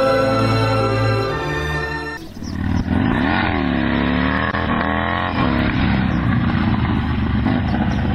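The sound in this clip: A motorcycle engine cuts in sharply after a steady droning tone, then runs loud and rough with a wavering pitch to the end.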